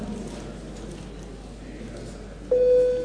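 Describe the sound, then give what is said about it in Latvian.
A steady electronic tone sounds as the vote signal in a parliamentary chamber. It comes in abruptly near the end over a low room murmur and holds at one even pitch. “Deputāti, lūdzu balsojumu, lūdzu zvanu.”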